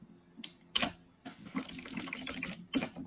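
Typing on a computer keyboard: a few sharp clicking keystrokes over a soft, busy clatter, with the taps spaced irregularly.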